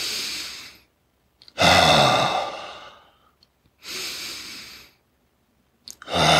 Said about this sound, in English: You really sit there and feel the expansion of your chest, and the contraction. And you take in breaths.